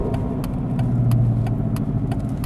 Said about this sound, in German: Am Wochenende nimmt Sibylle Hüttemann sich Zeit für einen Ausflug. Sie lenkt ihren alten Mercedes raus aus Alba Iulia.